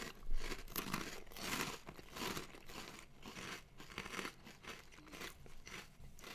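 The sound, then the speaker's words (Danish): Many crunches and crinkles as someone eats Cheetos, crunchy cheese puff snacks made of dried puffed corn. The bursts come in a dense, irregular run at moderate loudness, with no talking. “det er jo lidt sjovt, at jeg skal sidde og spise Cheetos”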